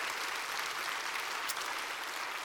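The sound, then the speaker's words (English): Audience applause welcoming guests joining from another location: a steady, dense wash of clapping that holds evenly throughout. “Let's put our hands together at Nine Mile and welcome the good folks at Spanish Trail.”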